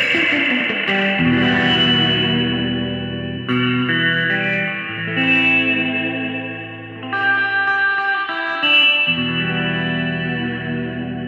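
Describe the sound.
Electric guitar played through a Zoom pedal on its Spring 63 spring-reverb setting: loud, sustained chords with a distorted, shimmering, echoing tone, moving through a few chord changes with no talking.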